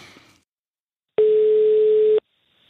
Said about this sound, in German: dann wähle ich hier einfach mal eine Nummer aus Österreich.